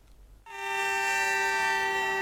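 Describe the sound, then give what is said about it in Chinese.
A train horn sounds at a border railway station from a freight train arriving from Russia, loaded with timber boards. A single loud, bright, steady harmonic blast starts abruptly and holds unbroken to the end. “这里是绥芬河火车站，随着一声清脆的汽笛鸣响，这列从俄罗斯驶来的75044次列车满载着板材向四川成都驶去。”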